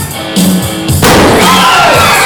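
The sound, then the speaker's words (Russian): A liquid nitrogen explosion on a stage in an assembly hall at a science festival scatters colourful balloons, giving one loud, sudden bang partway through, followed by sustained loud crowd noise. “А взрывы вызывают только восторг и радость. Один из них только что прогремел на главной сцене политеха. За пару секунд по актовому залу разлетелись разноцветные шарики.”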